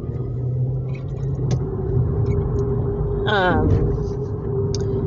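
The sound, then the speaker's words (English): A car horn honks once, briefly, over a steady low rumble of road traffic heard from inside a car. “sorry, somebody was honking at me even though he almost crashed into me.”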